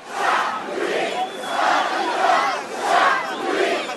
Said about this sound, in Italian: Quello che avete appena ascoltato è il rumore di piazza di Tunisi, dove si manifestava durante le primavere arabe.